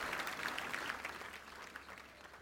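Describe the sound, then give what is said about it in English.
An applause sound effect welcomes a guest, a faint wash of crowd clapping that is fullest at first and then gradually thins out and fades. “So let's have some applause and let's welcome Phyllis to my podcast. Welcome, Phyllis. Let's make some noise, virtual noise or sound effects, whatever you want to call it.”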